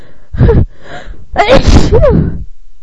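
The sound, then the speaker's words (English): A person sneezing loudly and alone: a breathy first burst, then a longer, forceful sneeze with a strained, voiced edge. “Stop sneezing.”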